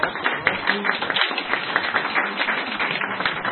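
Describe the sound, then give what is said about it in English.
An audience claps for a panelist at a panel discussion. Dense, steady applause of many hands makes a continuous patter of sharp slaps that holds at an even level to the end. “Okay, can we have a round of applause for”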